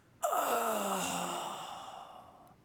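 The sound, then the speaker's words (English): A person's voice imitates a guttural groan, one long drawn-out sound that starts abruptly, slides downward in pitch and slowly fades over about two seconds. “the etymology of the word that from the Hebrew understanding of it, it's this guttural sound. It sounds like this.”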